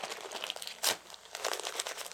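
Tape crinkles while a baby is being taped up. A sharp, loud rip bursts out among softer rustles and crackles of the tape being handled.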